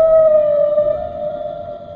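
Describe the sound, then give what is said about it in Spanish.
Humpback whale song: a single long, steady tonal moan with faint higher overtones. It begins abruptly at full strength and holds an even pitch as it slowly fades. “nos lleva luego a un lugar donde las ballenas jorobadas se reúnen, cantando juntas en un coro que resuena a través de las aguas.”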